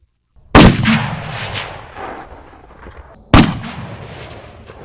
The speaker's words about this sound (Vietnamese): Ba tiếng nổ lớn phát ra là ba đạo quang mang sau một hồi đột phá kết giới bằng hơi nước của Hắc Giáp Trần Long